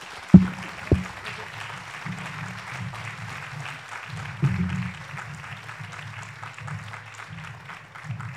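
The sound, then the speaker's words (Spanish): Audience applause at a community meeting: steady scattered clapping, fairly faint, over a low hum, with a few louder thumps near the start. “Un aplauso para ustedes.”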